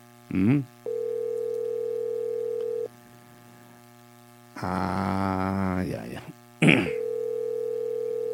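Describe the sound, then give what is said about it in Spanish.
Ringback tone of an unanswered outgoing telephone call: two steady mid-pitched tones with a long gap between, over a low constant hum, and short bursts of voice in between. “Estamos buscando el contacto telefónico con la profesora María de Cada, presidenta del barrio industrial.”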